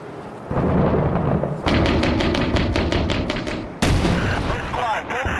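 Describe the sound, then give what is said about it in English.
Gunfire in the video game Six Days in Fallujah during a combat sequence: loud, rapid automatic bursts with sharp, evenly spaced cracks, followed by a fresh blast and more shooting. “Someone's shooting from inside still. I hear it.”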